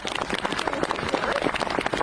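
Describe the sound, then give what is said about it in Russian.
Audience applause in honor of soldiers serving at the front: a dense, steady patter of many hands clapping at moderate volume, continuous and without pauses. “Я прошу всех аплодисменты парням.”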